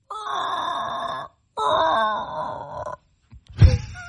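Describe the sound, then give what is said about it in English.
Human voice imitating a Brontosaurus dinosaur: two long, wavering groans, then a brief, noisy low huff. “Are these based on anything, or are you just making noises? What? That's the Brontosaurus.”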